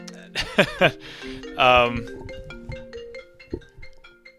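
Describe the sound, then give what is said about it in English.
An incoming-call ringtone sounds as a run of short, bright, repeating electronic chimes. Voices talk over its start. “I don't know what that was. That was wild. Yeah. You're getting a phone call.”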